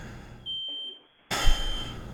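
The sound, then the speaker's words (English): A smoke alarm going off gives one steady, piercing high-pitched tone lasting under a second that cuts off abruptly; after a short silence, loud broad noise follows. “I come here and it's just this smoke alarm going off.”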